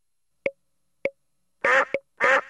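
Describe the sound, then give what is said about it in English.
A duck quacking: two short, buzzy, nasal quacks, each preceded by brief pops, with silence between the sounds. “D is for duck. D, D, D. D is for duck.”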